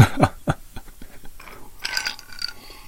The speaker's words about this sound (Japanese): 久しぶりに飲んだジャック・ダニエル。ワイルドな、ワイルドな味ですね。